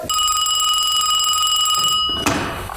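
A telephone rings with a continuous bright, buzzing electronic tone that stops abruptly, followed shortly by a brief clunk.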